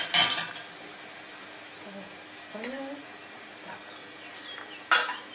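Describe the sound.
Faint clinks of dishes and utensils as fried onion is put on top of a dish, with a sharp clatter near the start and another near the end, light scraping between, and a brief murmured voice in the middle.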